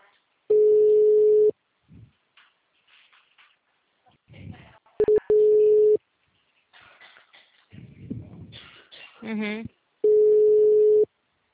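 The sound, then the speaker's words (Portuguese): Ringback tone of an unanswered telephone call placed over VoIP: three steady, evenly spaced beeps at a constant mid pitch, each about a second long, with a person talking in the gaps between them. “Vou tentar ligar do celular, porque do VoIP ela não tá atendendo.”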